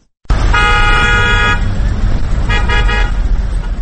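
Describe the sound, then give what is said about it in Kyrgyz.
Car horns honk among idling vehicles queuing at a fuel station in Osh during a fuel shortage: one long, loud blare, then a quick cluster of short toots, over a steady engine and traffic rumble. “Оштогу май куюучу бекеттердин айрымдарында автоунаалар мынтип кезек-кезекке туруп калышты.”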